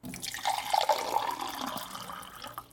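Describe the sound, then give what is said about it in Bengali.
Water pours from a clay pitcher of cool spring water for drinking: a steady splashing, trickling stream of about two and a half seconds, with no talking. “এই নাও, এই ঘড়ার থেকে জলটুকু খেয়ে নাও”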